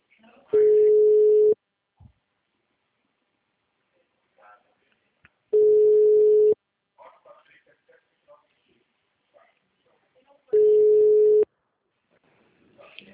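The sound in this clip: Ringback tone on a phone call while waiting for someone to answer: three steady beeps, each about one second long at a single low-mid pitch, spaced about five seconds apart with near silence between them.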